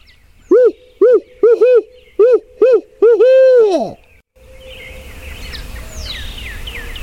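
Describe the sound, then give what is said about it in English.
A turkey hunter imitates an owl's hooting call in the morning: seven short, hollow, rhythmic hoots, then a long drawn-out hoot that falls in pitch. Quiet outdoor ambience follows, with faint bird chirps. “I'm going to try to do some owling and we'll see what happens.”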